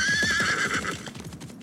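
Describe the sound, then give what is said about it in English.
Horses whinny and then gallop away after being cut loose from a rope around their legs. One long, high neigh wavers and fades over fast, rhythmic hoofbeats that keep drumming after it dies away. “He cut the rope from the horses' legs and they rode away.”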